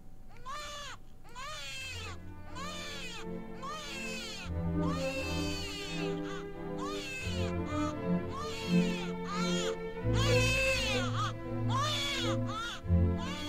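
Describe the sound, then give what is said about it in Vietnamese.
A baby cries in heartrending wails, with many shrill, strained bursts that waver up and down in pitch and repeat in close succession over a low, steady background. “Thế rồi nghe tiếng con khóc ở bên ngoài. Tiếng trẻ con khóc đến xé lòng.”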